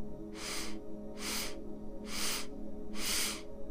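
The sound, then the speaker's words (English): Short, sharp inhalations taken in increments during a breathing exercise: four evenly spaced breathy sniffs, each about a third of a second, with brief pauses between them. “we're going to be breathing in increments, so it's going to look something like this. Inhale”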